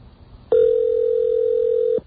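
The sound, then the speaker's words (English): A telephone ring heard while calling a voicemail system: one steady, mid-pitched tone lasting about one and a half seconds, clear and alone with no talk. “This ring could be anything, but if it's our voicemail system, you'll hear our unique error message, which will come after the next ring.”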